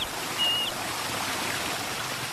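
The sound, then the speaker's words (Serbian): Steady rushing roar of a waterfall plunging into a deep gorge, a dense even wash of water noise that holds at one level throughout, with a brief faint high tone early on. “Mlaz vodopada survava se u ambis podamnom.”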